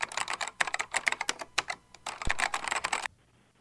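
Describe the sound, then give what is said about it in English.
Rapid typing on a computer keyboard: a dense run of many clicking keystrokes in uneven bursts, stopping abruptly before a quiet end. “Here, let me type that in.”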